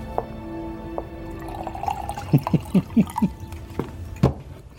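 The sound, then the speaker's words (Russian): Wine glugs into a glass in a quick run of low gurgles, then one more gurgle after a short pause, against a quiet background with no talk. “наливает себе вина”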